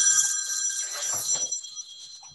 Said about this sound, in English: excuse me, I thought I had turned my phone on.